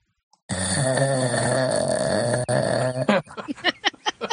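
A man snores while asleep on the floor of a haunted house, producing a long, droning, wavering groan-like rasp. It gives way to a few shorter, rough, rhythmic bursts.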